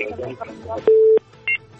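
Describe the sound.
Telephone dialing tones sound as a call is placed: after a short stretch of talk comes one long steady tone, then a brief higher beep.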